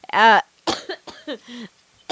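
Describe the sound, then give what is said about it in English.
A person coughs: a loud, harsh burst opens, then a few shorter rough, throaty bursts follow with small gaps between them. “I'm coughing and it's disgusting at the same time.”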